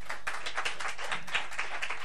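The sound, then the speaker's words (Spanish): Applause from an audience, a dense, steady wash of many overlapping claps lasting the whole clip at an even level, with no clear break. “Y gracias por el aplauso.”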